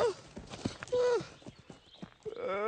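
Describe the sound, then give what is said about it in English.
A horse galloping toward a fence on a road, its hoofbeats clopping unevenly, with whinnying cries rising over them. “The horse gallops toward a fence.”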